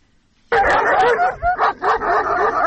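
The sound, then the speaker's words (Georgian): Stray dogs bark in Lagodekhi, Georgia, breaking in suddenly after a moment of quiet. The loud, dense barking mixes with yips and whimpering tones and continues almost without pause. “ლაგოდეხში ეს ხმა განუწყვეტლივ არა, თუმცა პერიოდულად დღის და ღამის განმავლობაში ისმის. აქ ასობით უპატრონო ძაღლს შეხვდებით.”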